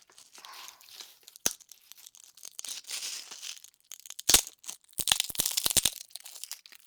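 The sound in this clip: Crinkling of a potato chip bag and crisp crunching of the chips, heard alone with no talk: a sharp burst early on, another in the middle, then a dense cluster of crackling crunches toward the end.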